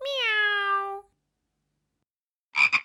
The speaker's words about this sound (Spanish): El gato hace